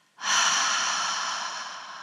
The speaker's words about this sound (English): Tense and hold. Double exhale.